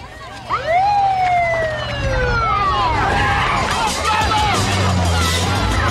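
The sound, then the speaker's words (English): Police siren wailing in loud, sweeping up-and-down tones, repeating over and over, with vehicle noise and indistinct voices underneath. “then the police decide to show up. It's time to get out of here. What's that?”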